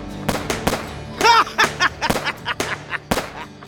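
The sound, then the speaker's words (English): Gunshots in a radio drama shootout between a sheriff and Oliver Lee: a rapid, uneven series of many loud sharp cracks, with a brief vocal burst among them. “One of Lee's bullets nearly hit the sheriff, who dodged out of the way just in time. Oliver Lee laughed wildly as he shot.”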